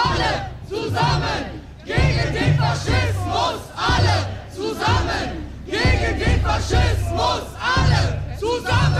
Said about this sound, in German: Ja, die AfD hat eine Kundgebung auf dem Rathausplatz in Lippstadt veranstaltet und das, was ihr gerade gehört habt, das war die Gegendemo auf der anderen Seite der Lippstädter Innenstadt.